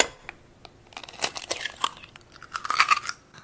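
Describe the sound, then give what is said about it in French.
Eggs are cracked for a recipe: a few quiet, crisp crunching cracks and crackles in quick, irregular succession, with no talk over them. “Après, il faut casser les œufs.”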